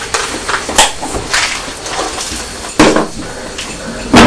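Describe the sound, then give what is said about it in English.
Dry pet biscuits sprinkled into a bowl over cat food, giving a few loud, crisp clatters and rattles spaced unevenly, with softer rustling in between. “Would you like a biscuit on that? Sprinkle some biscuits on Purdy's food.”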